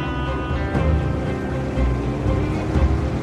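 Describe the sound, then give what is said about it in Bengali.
Wind roars past a motorbike speeding at around eighty or ninety, a loud, steady rushing hiss layered over a low, humming engine drone with a few swells in strength. “হাওয়ার শব্দে প্রায় কান বন্ধ হয়ে আসছে”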